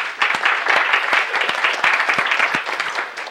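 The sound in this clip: Applause welcoming a guest in a legislative chamber: dense, steady clapping from many hands that fills the whole stretch at an even loudness with no voices.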